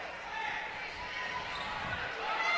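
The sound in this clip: A basketball bounces on the court during a college game between the Dordt College Defenders and the Mayville State Comets, with dull thuds under steady play-by-play talk and a constant crowd hum.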